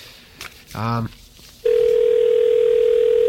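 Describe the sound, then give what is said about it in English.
A telephone ringback tone sounds through a brand-new 5ESS switch. A brief voice-like burst is followed by a single loud, steady, low electronic tone that holds unchanged to the end. “So while we're listening to the rings of our brand new 5ESS and amazed that they haven't figured out a way to charge us for every ring we listen to”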